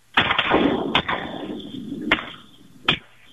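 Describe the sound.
Gunshots during a hunt over decoys: four sharp, loud shots at irregular intervals across a few seconds, each followed by a trailing rumble.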